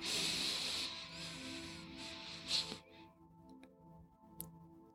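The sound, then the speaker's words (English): A deep inhale through the nose during a guided breathing exercise: a soft, airy hiss lasts almost three seconds, then gives way to near silence with a few faint ticks. “So inhale only through your nose and exhale out your mouth. Inhale.”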